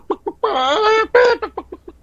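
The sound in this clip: A human voice imitates a rooster, with a long, drawn-out, strained crow and a shorter second cry, framed by a few short clucking bursts before and a quick run of clucks after.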